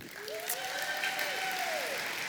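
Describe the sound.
Applause from a church audience welcoming speakers: a steady, even patter of clapping hands that holds at one level throughout without any voices.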